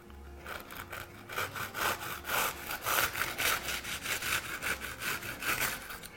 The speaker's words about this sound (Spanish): Bueno, vamos a cortar... Primero los pasteles, el tamaño de los pasteles.